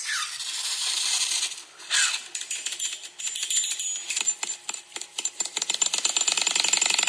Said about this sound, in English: the gas that's being released is pushing the coin from one side to the other, and it's going like that, going flopping back and forth in the groove.